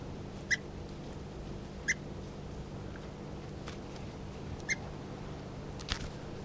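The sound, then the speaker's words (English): Short, sharp chirps come from a bird being handled: four brief high calls spaced unevenly over several seconds. They are faint, over a low steady hum, with no voices. “This is bird 336 being handled.”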